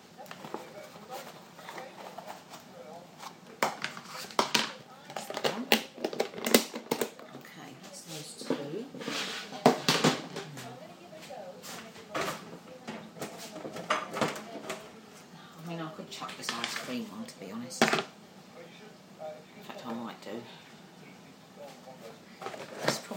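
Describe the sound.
Containers and lids are sorted and handled in a cupboard, giving many irregular clatters, knocks and scrapes that come in uneven clusters throughout.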